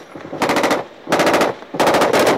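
Automatic gunfire from a Marine in a firefight in Afghanistan, played from a video: three loud, sustained bursts of rapid, evenly spaced shots separated by short pauses, with no voices.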